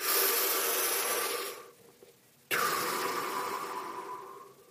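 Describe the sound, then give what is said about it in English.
Heavy, deliberate breaths blown straight into a microphone: a long, loud rushing breath, a short quiet gap, then a second long breath of the same harsh, windy roar, slowly fading at the end. “There's nothing like blowing into a microphone. I'm sure it sounds great as I'm recording this and thinking about that. In, out, in, out. It's aggressive breathing techniques.”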